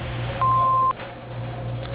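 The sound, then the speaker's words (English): A single steady electronic answering machine beep, a pure mid-high tone lasting about half a second, sounds over a low telephone-line hum. “please leave your name, number, and a brief message after the beep”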